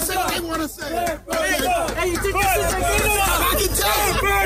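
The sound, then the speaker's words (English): Basketball crowd booing a man in a half blue, half red Clippers jacket and Clippers hat, a dense, continuous roar of many overlapping voices that dips briefly about a second in before surging back loud. “and everyone's behind him just booing.”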